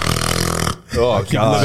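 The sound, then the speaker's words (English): A voice imitates snoring with a low, buzzy, rattling drone that holds for under a second, then breaks off into ordinary talking. “There was a kid that I knew that snored it just like that.”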